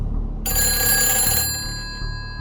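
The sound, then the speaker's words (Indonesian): A telephone bell rings once in a house: a bright, high metallic ring starts abruptly, holds for about a second, then fades away. “Robert Farul pun berjalan sempoyongan ke rumahnya untuk menelpon polisi”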